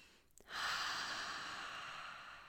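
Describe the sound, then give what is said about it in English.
A deep breath taken in through the nose and let out through the mouth: a quick, faint sniff followed by a long, steady, airy exhale that gradually softens. “Let's take a deep breath together before we dive in through the nose and out through the mouth.”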